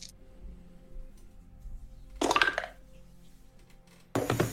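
Six dice are rolled for a tabletop role-playing game, making two short, bright rattling bursts with a quiet gap between them.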